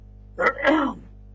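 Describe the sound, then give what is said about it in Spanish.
A person coughs, or clears the throat, in two quick rough bursts close together, short and moderately loud against a quiet background, with no talk during it. “Perdón, me atacó una tos muy mala.”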